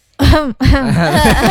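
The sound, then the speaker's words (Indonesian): A cough or throat-clearing comes in two loud bursts, a short one followed by a longer, rougher one that carries on to the end, with no other voices. “Itu batuk ya? Itu batuk apa gimana?”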